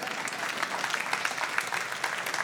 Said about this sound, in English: That's a good place to clap.